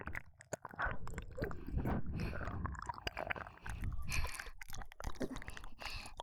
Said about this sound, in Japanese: 地元のお菓子です。とても美味しいのでぜひ。いや、今食べてください。